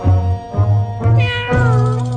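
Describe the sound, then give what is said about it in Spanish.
A cat meowing: a few drawn-out meows in quick succession, loud, with wavering pitch over a steady low tone. “los invitamos a escuchar a petición del cumpleañero, el gato Nero. Miau. Miau.”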